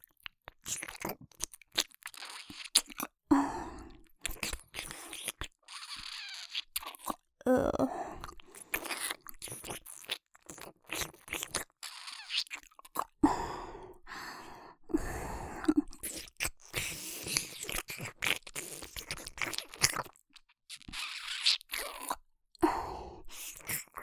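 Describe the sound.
Crunchy eating sounds with bites and chewing close to the ear, made as a left-ear sequence. Many sharp, crackling crunches come in an irregular rhythm, loud and dense throughout.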